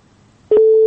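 A telephone busy signal sounds after a call is cut off: a single steady, low-pitched beep lasting about a third of a second, loud and alone after near silence.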